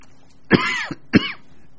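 Someone clears their throat in two short, rough bursts, the first slightly longer, each a harsh guttural rasp heard alone against quiet.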